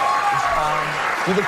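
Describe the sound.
Studio audience applause on Jimmy Kimmel's late-night talk show: a steady, dense wash of clapping lasting about a second and a half, with voices talking over it.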